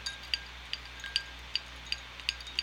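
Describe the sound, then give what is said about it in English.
Stirring blue sports drink powder in a running cup gives a series of light, high-pitched clinks in an even rhythm, quiet and with no talking over them. “I'll give it a quick stir in my Believe in the Run cup here.”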